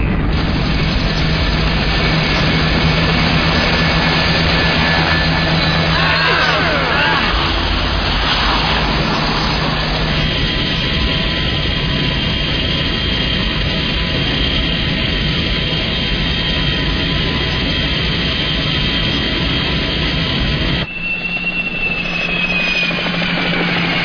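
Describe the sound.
A helicopter's engine and rotor roar loudly and continuously as wounded people are loaded aboard. The heavy, steady drone holds for the whole stretch with only a brief dip near the end and no clear voices.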